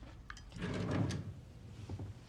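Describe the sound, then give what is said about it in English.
A drawer slides open or shut in a bathroom during rummaging: one soft, rumbling slide, then a few faint knocks and clicks, all quiet. “In her bathroom, the mother rummages through drawers.”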